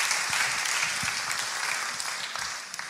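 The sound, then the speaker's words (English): Applause from a church audience during a service: many hands clap in a dense, steady patter that eases off slightly over a few seconds. “Guys, could you put your hands together one more time for Andrew Montoya?”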